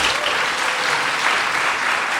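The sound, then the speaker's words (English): An audience claps in response to a show-of-hands question, producing a dense, even burst of applause that stays loud and steady for the whole stretch. “All right, how many people have iPhones in their pockets? Clap.”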